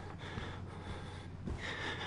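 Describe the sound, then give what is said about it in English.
A person breathing hard, quiet and labored, with a few sharp snorting gasps and no talk. “You breathing so hard.”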